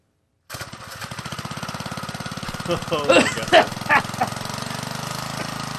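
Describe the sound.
A small pull-started engine in a garage roars to life with an abrupt start, then runs with a steady rattling, lawn-mower-like drone, surging louder in a few revs midway before settling back to a constant loud idle.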